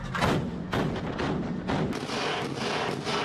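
A warship's main gun opening fire on air targets during a naval exercise: several heavy, booming shots in close succession, each blast merging into a continuous loud rumble.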